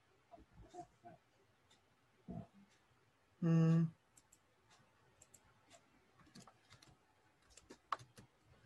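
Keyboard typing while a name is entered on a computer: faint, irregular clicks and ticks scattered throughout, interrupted near the middle by one brief, loud harmonic tone.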